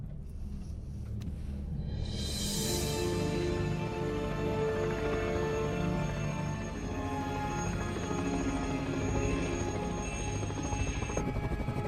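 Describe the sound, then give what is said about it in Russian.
A helicopter in a film scene set around an icebreaker gives off a continuous low rotor and engine rumble with a steady tonal whine. The sound holds at an even level for about twelve seconds. “Вертолет.”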